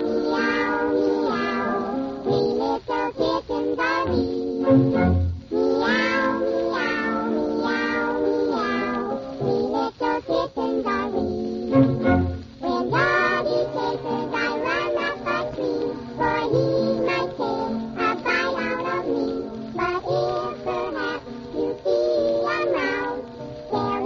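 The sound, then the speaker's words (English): Kittens' meows sung as a song by voices imitating cats: many rhythmic, melodic meows follow one another almost without pause, steady and fairly loud throughout. “I'm sure you can use my kittens. They sing very well. Come, kittens.”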